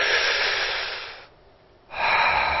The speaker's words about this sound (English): if you close your eyes and you put your hand on your stomach and you push out with your stomach when you breathe in, and relax.